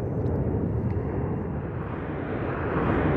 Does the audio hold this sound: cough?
no

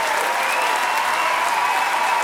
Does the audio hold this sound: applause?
yes

